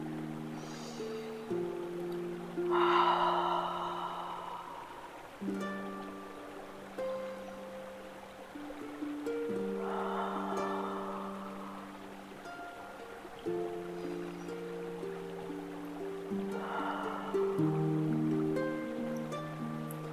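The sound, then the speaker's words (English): Slow, deep cleansing breaths come as three soft, airy swells spaced several seconds apart over gentle sustained synth-pad music. “Let's take three deep cleansing breaths in through the nose and out through the mouth.”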